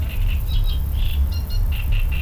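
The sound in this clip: Birds sing in the village of Célès: repeated short, high chirps and tweets in quick phrases over a steady, loud low rumble.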